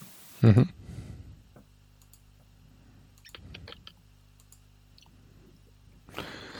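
Dice are rolled during a tabletop role-playing game: a sharp knock at the start, then sparse light clicks and a brief rattling cluster over a faint steady hum, and a rustling rise at the end.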